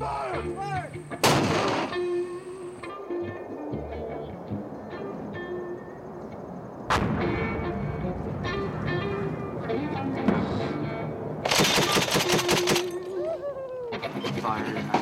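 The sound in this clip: Gunfire during a military deployment firefight: a few loud, sharp cracks, then a cluster of rapid shots near the end, over a constant rumbling background, with voices talking.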